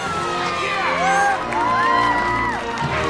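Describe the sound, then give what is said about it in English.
Whoops and cheers from a mission control crew celebrating a successful spacecraft re-entry, with several voices overlapping in loud, sustained, rising and falling shouts throughout. “In mission control, everyone cheers.”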